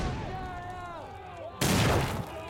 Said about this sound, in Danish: så kan søfolkene fra de danske skibe altså kaste deres små granater, håndgranater, over på sørøvernes skibe.